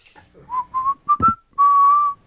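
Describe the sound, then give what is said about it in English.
A person whistles idly while waiting, a short clear phrase of several brief notes at a similar pitch that ends on a longer held note, fairly loud and with no talk. “start whistling while waiting”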